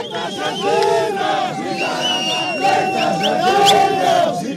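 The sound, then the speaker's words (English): Protesters shouting in a street in Harare, Zimbabwe's capital, during deadly violent protests: a dense crowd of many voices yelling and crying out continuously, loud throughout with no pause. “That's the sound of protesters in Harare,”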